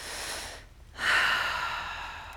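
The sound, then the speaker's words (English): A deep breath drawn during a guided pause: a soft inhale, a brief hush, then a fuller, louder breathy exhale that slowly fades, heard alone. “if you just would open your hands with me, close your eyes, take a deep breath.”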